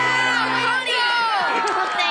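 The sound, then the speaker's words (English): Loud crowd cheering for a youth baseball coach, with shouting and whooping voices, some of them children's, blending into one continuous burst of excitement that stays strong throughout. “a cheer for Coach Kendall.”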